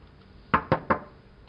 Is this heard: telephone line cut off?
no